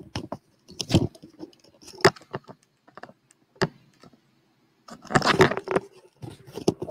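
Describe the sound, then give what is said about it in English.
A headset cord is untwisted by hand, giving faint, scattered rustles and small clicks in a few short bursts, with a denser flurry of handling noise near the end; no speech. “And just let the headset twist. It's been twisted twice, so it was driving me nuts that the cord has these two twists in it right in front of me, and I couldn't help but my hand keeps fiddling with it.”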